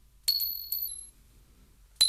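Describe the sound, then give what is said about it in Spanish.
A pin dropping makes three bright, ringing metallic pings: two close together near the start and a third after a pause, each sustaining a thin high shimmer against near silence. “si, por ejemplo, suena una caída de un alfiler”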